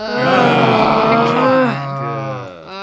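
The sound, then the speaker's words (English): A group of people groaning together in unison: a loud, sustained, voiced groan that holds steady for nearly three seconds before trailing off. “The group lets out a unanimous groan.”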